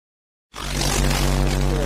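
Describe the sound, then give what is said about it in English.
A car driving on the road with the driver inside, heading back from Indianapolis with furniture: after half a second of silence, a steady, loud, broad road-and-engine rumble sets in and holds. “anyway, I'm driving.”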